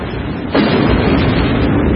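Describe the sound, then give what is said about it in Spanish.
Artillery shells burst near a machine-gun nest by an industrial building: a sudden, loud boom about half a second in gives way to a heavy, sustained rumble. “El primer punto a batir Será ese nido de ametralladoras. Los proyectiles caen cerca de ellos.”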